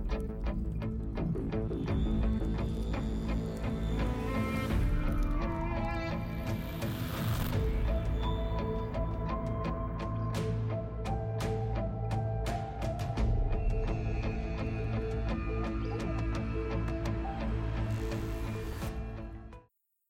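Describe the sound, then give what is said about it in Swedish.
Intro music for a murder and mystery show plays for about twenty seconds. Layered sustained tones are punctuated by bright, sharp accents, and the loudness stays steady until the music cuts off abruptly at the end. “Vi gör så här, vi startar intromusiken nu och sen så får ni höra vad jag har bjudit på efter introt.”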